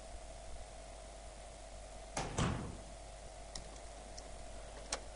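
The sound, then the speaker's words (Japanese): A heavy door swings shut with one dull thud and rattle partway through, followed by a few faint clicks, all quiet over a steady low hum. “私の信じられない思いをよそに、扉は重く閉ざされた。”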